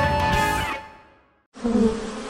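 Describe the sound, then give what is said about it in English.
Wasps buzz at a nest above a front door in a loud, tonal drone that fades away over about a second. After a short silence, a rougher, noisy stretch follows. “did you see that wasp nest above the front door?”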